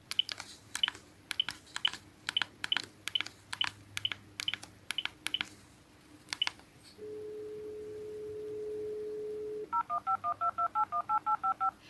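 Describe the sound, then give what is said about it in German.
A telephone number is dialed to place a call. A long run of quick keypad tone beeps is followed by a steady ringing tone, then a rapid series of short electronic beeps. “Wir werden ihn jetzt mal zusammen hier anrufen und mal gucken, ob unser Plan aufgeht.”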